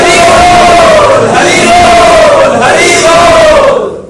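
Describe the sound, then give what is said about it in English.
Devotees chanting loudly together in welcome. The chant is dense and continuous, with a held melodic pitch that dips slightly between phrases. “So we also welcome our devotees who have come with Maharaj by loudly chanting.”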